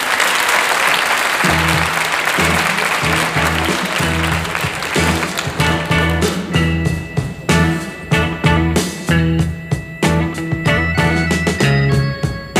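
Studio audience applause welcomes a rock group, with loud steady clapping throughout. After about a second and a half, band music enters with a pulsing bass line and plays on beneath the clapping.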